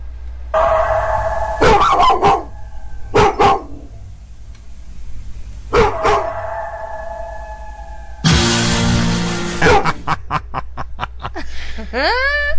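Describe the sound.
A dog barks and growls in a few loud bursts, including a longer rough stretch, followed by a quick string of short sharp sounds near the end.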